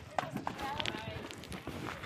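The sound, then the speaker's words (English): Footsteps crunch across a long stretch of pebbles as a group carries a raft, a few uneven crunching steps with people talking over them. “They're carrying the raft now across a rather long stretch of pebbles to the farm, but they don't seem to mind.”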